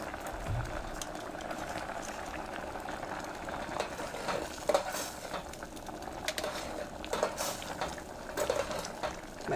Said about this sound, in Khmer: បង្អែមមួយនេះគឺយើងត្រូវការកូរវាបានច្រើនដល់បន្តិចដើម្បីកុំឲ្យអង្ករដំណើបវានៅបានឆ្នាំងគឺវាខ្លោច